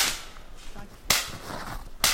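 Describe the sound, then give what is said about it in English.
Two sharp .22 rifle shots fired at a live tree branch about 40 feet up, each a loud, whip-like crack with a short tail, separated by about a second over a faint background. “Hal squares his rifle on a nearby tree and aims for a low branch on his potential champion, about 40 feet up.”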